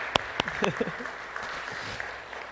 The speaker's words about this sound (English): Band is going to come back up, and sure, we can applaud. That's fine.